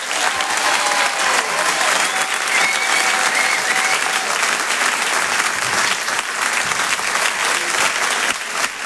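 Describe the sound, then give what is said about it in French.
A comedy club audience gives an ovation, with dense, continuous clapping. The applause holds at a loud, even level for several seconds and drops off only near the very end. “Je demande une ovation, s'il vous plaît, pour Céline”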